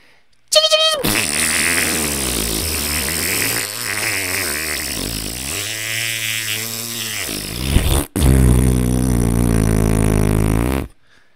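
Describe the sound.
A truck exhaust blats out buzzy, fart-like noises, loud and rasping, wavering up and down in pitch for several seconds, then breaking off briefly before a steadier drone that cuts out.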